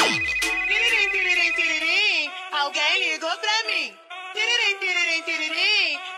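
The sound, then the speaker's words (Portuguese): A telephone ringtone plays loudly as a warbling, melodic pattern of bright tones, repeating in bursts separated by brief gaps. “Alguém ligou pra mim. Esse é o telefone”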